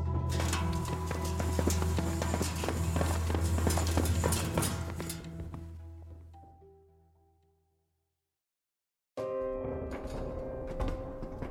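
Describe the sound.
Footsteps going down stairs: a quick, clopping run of steps that grows gradually fainter and fades into silence.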